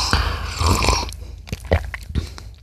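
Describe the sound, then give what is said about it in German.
A loud, noisy slurp of hot coffee mixed with olive oil is followed by a few short mouth and swallowing sounds. “Also das heißt, das Öl konnte sich herrlich mit dem Kaffee vermischen. Ich sehe es jetzt noch nicht so ganz. Ich probiere es mal ganz kurz. Angeblich soll dieses Olivenöl super mit Kaffee harmonieren.”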